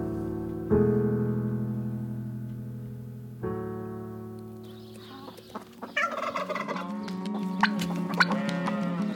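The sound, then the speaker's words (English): Barn ambience with cattle: long, drawn-out low moos with steady tone, then a busier stretch of overlapping animal calls toward the end. “All right, we're here at the barn. It's a bit quiet today, and I'm looking forward to when it is not so quiet.”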